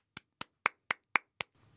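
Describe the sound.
Six sharp hand claps ring out alone at an even, steady pace, each crisp and quickly fading, followed by a brief faint rustle.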